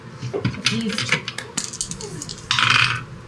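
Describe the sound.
Dice rolled on a table during a tabletop role-playing game, a run of sharp clicks and small clattering knocks that bounce irregularly. A denser rattle comes near the end.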